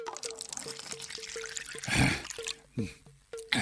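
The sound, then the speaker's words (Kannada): Water poured into cupped hands for drinking splashes in a few short, noisy bursts, with a faint steady tonal hum and gentle trickling between them. “ತಗೋ ಬೊಗ್ಸೆ ಹಿಡಿ, ನೀರು ಸುರಿತೀನಿ ಕುಡಿ.”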